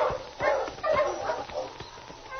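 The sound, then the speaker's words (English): A dog barks on a sled-dog trail where a husky approaches: a few short, sharp barks and yips, fairly faint. “Yeah, that is a dog.”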